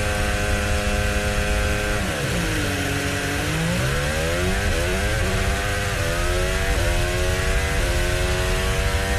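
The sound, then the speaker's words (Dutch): Formula 1 car engine heard onboard at a race start: a loud, high, continuous whine holds, dips sharply, then climbs again through several quick gear shifts, each shift dropping the pitch before it rises once more. “Nou, dat klonk als een redelijke start. Kimi Antonelli waren we bij onboord, dames en heren. Klonk zeker als een redelijke start.”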